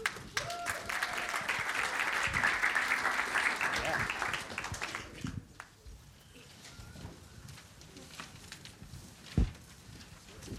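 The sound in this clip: Audience applause welcoming a speaker on stage, a dense, steady wash of clapping that holds for about five seconds, then drops away into quieter room noise with a few scattered claps.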